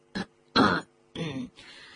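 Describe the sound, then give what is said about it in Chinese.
A nervous, uneasy man clears his throat in four short, rough bursts separated by pauses, the later ones longer and lower in force, with no other sound around them. “他心神不定，清了清嗓子。”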